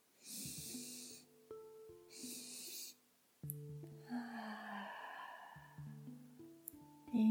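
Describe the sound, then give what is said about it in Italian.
Breathing exercise with two separate airy inhalations followed by one longer, softer exhalation, set against sustained soft background music tones. “Inspiro 2 secondi, inspiro altri 2 secondi e lascio andare.”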